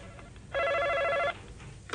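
A telephone rings once: a single steady electronic trill lasting under a second, loud and bright, over a quiet background hiss with no voices.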